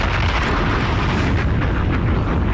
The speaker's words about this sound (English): But we're going to, like I said, detonate that bomb.